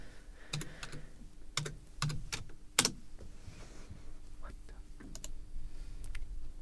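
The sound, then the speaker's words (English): Keys click on a computer keyboard as a word is typed into a search, in irregular bursts and scattered single strokes over several seconds, with faint talk underneath. “type in a big word.”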